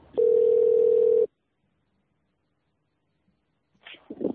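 A steady telephone dial tone sounds after the other party hangs up, holding one even pitch for about a second before cutting off into silence.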